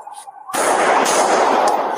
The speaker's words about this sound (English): Boom, nice three clean shots. I think I got him down.